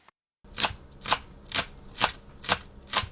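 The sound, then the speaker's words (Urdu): Knife cutting green onions and ginger for a garnish: six crisp, evenly spaced chopping strokes at a steady rhythm of roughly two per second, each a short sharp burst, with no voices. “سب سے پہلے سجاوٹ کے لیے ہری پیاز اور ادرک کاٹیں گے۔”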